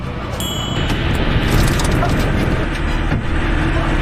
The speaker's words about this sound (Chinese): 驾驶员注意，道路前方视线不佳，车辆加速通过。